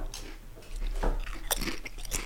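Chewing and biting on food that tastes like poor-quality bacon, with a few crisp crunchy bites standing out over steady mastication and no talking.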